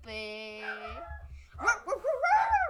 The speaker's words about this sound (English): That was just the dogs barking nonstop.